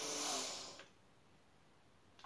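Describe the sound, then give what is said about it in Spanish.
A person takes one deep inhale during a breathing exercise: an airy hiss that lasts under a second and then fades into quiet, with a faint short breath sound near the end. “Inhala.”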